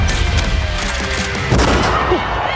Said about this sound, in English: Shots fired!